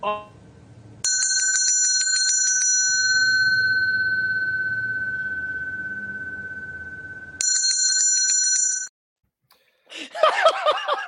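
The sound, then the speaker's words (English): A homemade bicycle-style bell sound effect rings out bright and clear, holding a long sustained tone that slowly fades over several seconds, then strikes a second, shorter time before cutting off. “that is the belly bell that I promised Chris Ram, who I don't know if he's here this week, but he coined it last week and I told him I would make something.”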